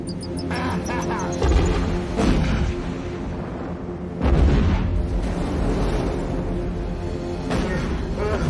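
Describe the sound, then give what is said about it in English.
Bombs exploding in an action-film fight, heavy booming bursts rising out of a dense, loud wall of music and rumble, with a few separate blasts standing out among the noise. “Bombs away, Batman.”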